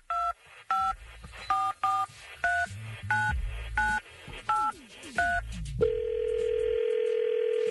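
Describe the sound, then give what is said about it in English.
Touch-tone keypad beeps dial a telephone number in a quick run of short, evenly spaced tones over a low rumble, then give way to a steady, continuous line tone. “Well, let's dial her up.”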